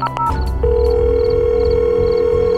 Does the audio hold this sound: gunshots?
no